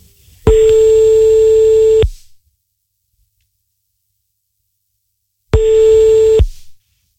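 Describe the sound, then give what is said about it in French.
Ringing tone heard when calling a landline: two steady, even-pitched electronic tones, the first about a second and a half long and the second about one second, separated by roughly three seconds of silence, with no voices. “On recompose une dernière fois, allez. Là on appelle sur le fixe, faut préciser ça en fait. On appelle sur le fixe de ta mamie en fait.”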